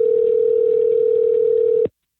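A steady ringback tone plays while a call is placed from a cell phone. It is one level, moderately loud electronic hum of about two seconds that cuts off abruptly into silence.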